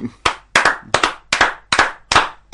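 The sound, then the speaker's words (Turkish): Crisp hand clapping in a studio, a steady series of loud, evenly spaced claps, some of them doubled, with no voices over it. “Sevgili dinleyiciler, bu mesajı dakikalarca alkışlardık ama tabii ki programımızın bir süresi var.”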